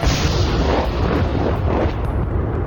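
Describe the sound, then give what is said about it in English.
Incoming gunfire and artillery fire aimed at Marines of the 2nd Battalion, 5th Regiment, shooting from a group of buildings in a war zone. It is a dense, continuous rumbling roar with no clearly separate shots and no voices. “For 4 days now, they have been taking incoming fire from this group of buildings you can see through the mist.”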